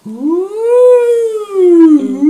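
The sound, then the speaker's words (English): A voice imitating an American police siren with a loud, sustained wail that rises, then slowly falls, breaks off briefly, and swells again in a second, shorter sweep. “it's a really distinct police siren that's very different from the American siren, which is like”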